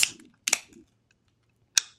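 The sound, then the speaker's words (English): A watermelon-flavoured drink can is cracked open with difficulty, giving three sharp, crisp snapping clicks spread unevenly across two seconds, each brief and bright, with no fizz evident afterward. “So, all right, well, let's crack this open and get to drinking. Here we go. 3, 2, 1, crack.”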